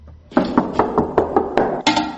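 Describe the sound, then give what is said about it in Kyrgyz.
Knuckles rap on a neighbour's apartment door in a multi-storey block: several sharp, fairly loud knocks in a quick, slightly uneven rhythm, with a brief gap before the last couple. “Соседтердин үйүнө келсек, мамынтип такылдатсак да ачпайт.”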